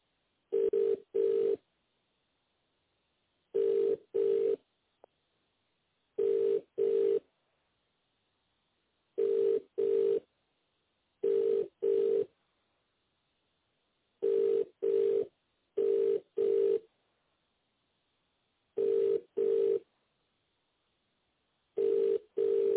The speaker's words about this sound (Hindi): You are getting connected by drop dial.